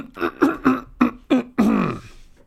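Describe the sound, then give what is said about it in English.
Loud throat clearing voiced by a reader for a character: a quick series of short, voiced, gravelly rasps ending in a longer, drawn-out one. “Chiron cleared his throat loudly.”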